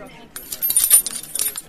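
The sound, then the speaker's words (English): A set of hotel room keys jangles as it is handed over at the front desk: a short run of bright, metallic clinks and jingles in an irregular flurry. “Here are their keys.”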